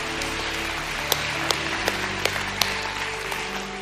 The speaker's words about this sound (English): Can we put our hands together and welcome people into God's family today?